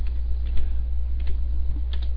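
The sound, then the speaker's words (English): Computer keyboard typing as a search is entered, a few faint key clicks over a steady low hum. “And let's see, I gotta actually type that into the search box here.”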